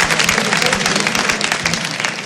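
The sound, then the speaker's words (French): An audience applauds a pair of performers at a variety show with dense, steady clapping made of many overlapping claps that stays loud throughout. “On les applaudit, s'il vous plaît.”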